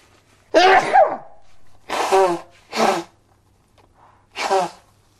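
Sneezes, four sharp explosive bursts in an uneven rhythm: the first long and voiced, then two close together, and a last one after a pause. Quiet, hissy gaps fall between them, and no talk is heard.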